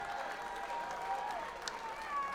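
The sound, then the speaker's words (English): An audience applauds the volunteers who register voters for Headcount at a live event: a dense, steady wash of clapping mixed with crowd noise that holds at an even level from start to finish, with faint voices and whistle-like tones running through it. “And I want everybody to give it up for the volunteers one more time, because without the volunteers, Headcount is nothing.”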